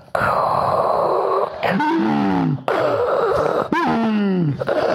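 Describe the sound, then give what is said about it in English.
A voice imitates an air mattress hand pump with a few rhythmic, strained groaning wheezes, each stroke a loud, breathy, sliding vocal push separated by brief breaks. “That's my hand pump noise.”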